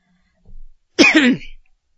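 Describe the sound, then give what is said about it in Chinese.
A man's light, throat-clearing cough: a soft breath, then one short voiced burst, alone with no talk around it. “乾隆看了看这两个人，轻轻咳嗽了一声”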